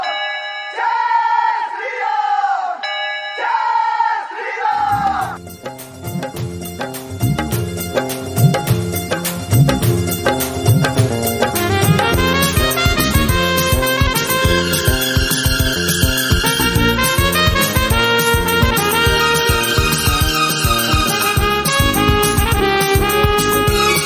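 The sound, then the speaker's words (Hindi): Voices chant the slogan Jai Shri Ram in a few loud, spaced calls, then dense devotional music with ringing bells and percussion takes over and continues loudly to the end. “इसलिए भक्तों, एक ही नारा, एक ही नाम, जय श्री राम।”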